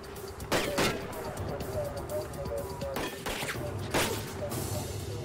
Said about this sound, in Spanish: Los oficiales le disparan 4 veces más.